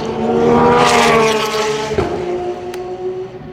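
A race car drives past close behind another car: a loud, steady engine roar that drops in pitch as it passes midway, then a droning engine tone that continues.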